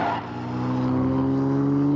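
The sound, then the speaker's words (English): A supercharged car engine revs up in a brief, steady roar with a sustained whining tone that swells slightly in loudness. “I'm just going to have to use the supercharger. That's it. Crank it up to max.”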